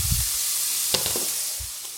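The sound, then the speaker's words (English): Chopped onion sizzles in shimmering oil in a hot frying pan as it is stirred: a continuous bright hiss, with a few soft scraping and clattering touches of the utensil against the pan. “I want the onion cooked, so I'm going to stir it up while it's cooking.”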